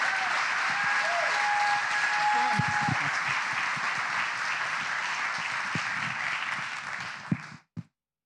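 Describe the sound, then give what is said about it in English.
Church audience applauding on Young Communicators Sunday, a full, steady wash of many hands clapping that holds for about seven seconds before dying away with a few last scattered claps. “So everybody, I want you to put your hands together.”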